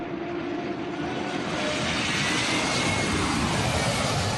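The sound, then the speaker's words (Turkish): Two passenger planes in a low display flight over the roof of a 55,000-seat stadium in Cape Town before a rugby match make a loud, continuous jet roar that holds steady and swells slightly toward the end. “Rugby maçı öncesi gösteri uçuşu yapan iki yolcu uçağı 55 bin kişilik stadyumun çatısına fazlasıyla yaklaşarak izleyicilere panik yaşattı.”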